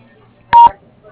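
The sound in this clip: A single short voicemail beep from an answering machine, sounding once after the greeting as a steady, mid-pitched electronic tone lasting a fraction of a second, with no talk.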